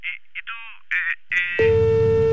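A telephone tone follows the hang-up of a scam call from someone posing as a customs office. After a few short tonal chirps, a steady, harmonic-rich tone starts abruptly and holds to the end.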